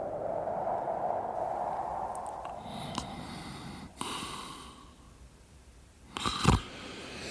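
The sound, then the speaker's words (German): A person snores in their sleep on a night during a snowstorm: steady low, rough rumbling breaths, punctuated by a few harsher snorts, the loudest and throatiest near the end. “Mein Gott, Sie schnarchen ja. Was ist los? Ich habe gesagt, Sie schnarchen.”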